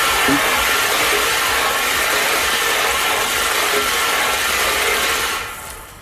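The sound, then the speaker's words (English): A lottery ball draw machine spins its balls with a loud, steady whirring roar. The noise runs unbroken for about five seconds, then tapers off near the end. “there's not much left to do apart from spin the balls. Let's do it.”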